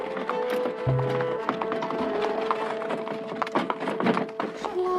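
Horse-drawn coach on the move, hooves clip-clopping in an irregular trot over a rumbling, creaking background, with a brief low hum and scattered knocks throughout.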